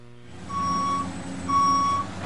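Reversing beeps from construction equipment: two long, steady high-pitched tones, evenly spaced, sounding over a low engine rumble.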